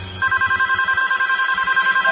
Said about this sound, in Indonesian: Kebetulan aku yang paling dekat dengan telepon itu. Dan aku yang mengangkatnya.